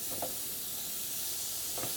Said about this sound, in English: Now you see, I said it'll take about 5 minutes on both sides. Yep. But because our grill is just already heated up, it was already nice and hot, mm-hmm. it's gonna start cooking a lot faster.